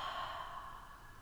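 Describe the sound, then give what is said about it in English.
A slow exhale out through the mouth during a guided breathing meditation: a soft, breathy hiss that fades gently over about a second. It is faint and heard alone. “Holding at the top and exhaling out the mouth.”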